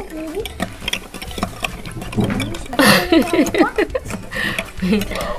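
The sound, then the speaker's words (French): Stirring of a milk and sugar mixture: brief, irregular scraping and swishing that comes and goes under steady talking. “Bon, on va mélanger. Oui, on mélange bien. Ça fait du lait ? Oui, c'est du lait avec du sucre.”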